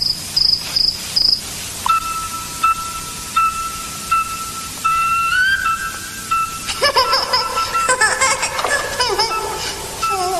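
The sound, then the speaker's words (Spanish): A cricket kept as a pet chirping in bright, high-pitched trills. It opens with a few quick pulses, then settles into a steadier run of repeated chirps, with busier faint scratchy sounds toward the end and no talk. “Él me hizo compañía en este largo viaje. ¿Sabe? Hace reverencias a su majestad. Ahora podrá ser el grillo del emperador.”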